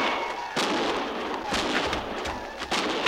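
Gunfire in a canyon: a few sharp, loud reports burst out at irregular intervals over a continuous rough background noise.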